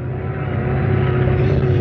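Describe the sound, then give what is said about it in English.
A tractor engine drones steadily inside its slightly cramped cab during barley planting, a constant low hum with a steady tone that holds at an even, fairly loud level throughout. “come into the slightly cramped cab of this tractor”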